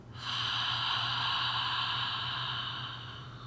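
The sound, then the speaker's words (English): A slow breath drawn in through the nose and let out during a guided breathing exercise makes one long, steady, airy hiss that lasts about three seconds on its own. “Breathe in through our nose. Breathe out.”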